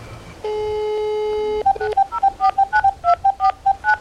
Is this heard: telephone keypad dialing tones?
yes